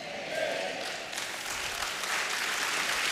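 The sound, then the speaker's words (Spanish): An audience claps for the Lord during a church service: a dense, continuous wash of hands clapping, fairly soft and even across the whole stretch. “Dele palmas al Señor.”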